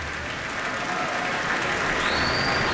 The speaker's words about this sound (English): And this audience in the Koussevitzky Music Shed on its feet with a standing ovation, and it looks like there is an encore.